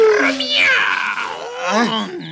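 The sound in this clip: A tiger roaring in a forest, a loud, drawn-out growling cry of about two seconds with gliding pitch, sinking into a lower groaning rumble at the end.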